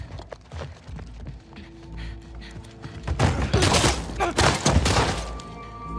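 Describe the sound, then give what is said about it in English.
A gunshot rings out in a video game as one character shoots another, a loud burst of sharp cracks and heavy thuds after quieter rustling. “Abby turns up. She shoots Jesse, dead, and she's there demanding answers.”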